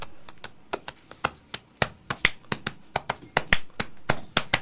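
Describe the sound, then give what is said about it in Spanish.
Body percussion: many sharp claps and slaps of hands against the body, struck in a quick, uneven rhythm, crisp and fairly loud, with no talking. “Esta es percusión corporal.”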